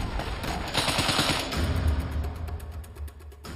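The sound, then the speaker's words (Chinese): Sustained bursts of automatic gunfire from a Browning automatic rifle, a light machine gun used for suppressing fire in the Omaha Beach landing battle. Many rapid, loud shots run together in a steady clatter. “这款是勃朗宁自动步枪，也可以算是一种轻机枪，是个野兽。”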